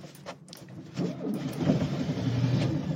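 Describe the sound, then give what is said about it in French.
Engine of a 1971 car started with the key and choke: a quiet stretch, then a low rumble that swells and settles into a steady, rough idle. “Vous avez tourné la clé, appuyé sur le starter? Oui, j'ai appuyé, tourné la clé, j'ai démarré”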